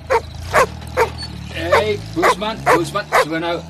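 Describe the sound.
A mongrel dog barks and yips many times in short, sharp bursts, mixed with speech throughout.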